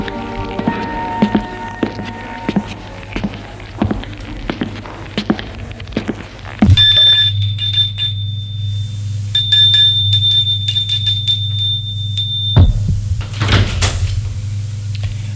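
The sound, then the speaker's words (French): A doorbell rings at a house, a bright sustained bell tone that lasts several seconds, preceded by scattered thuds and door-like clatter. “Demain, après-midi, Galien va sonner chez la mère de Guillaume, Madame de Flory, Antoinette.”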